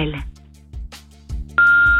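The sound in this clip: A voicemail beep: after a brief recorded voice, a single loud, steady high electronic tone begins abruptly and holds unchanged to the end.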